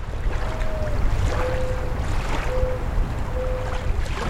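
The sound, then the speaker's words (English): Water washing at the shore of Walden Pond in Concord, Massachusetts, a steady rushing wash with four drawn-out whistle-like tones recurring above it. “On July 4th, 1845, Henry David Thoreau came here, to the shores of Walden Pond in Concord, Massachusetts.”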